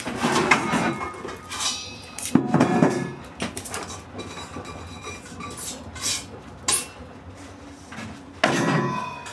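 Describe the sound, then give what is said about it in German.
Cooking pots clanking as they are handled in a kitchen, a small one for pudding and a large one for sauce; bursts of metallic clatter and knocks come at irregular intervals with quieter stretches between. “So, wie viele Kochtöpfe haben wir denn jetzt noch? Den kleinen, da machen wir den Pudding drin. Dann brauchen wir den ganz großen jetzt für die Soße.”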